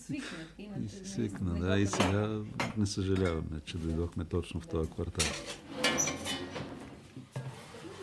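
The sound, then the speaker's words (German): Metal clatter in a cramped kitchen of a prefab apartment block as a baking tray with roast chicken is set down and a toaster is pushed aside. A few clanks and scrapes sound under steady talking. “nimmt das Hähnchen aus dem Ofen. Um das Blech abzustellen, muss er erst den Toaster aus dem Weg räumen.”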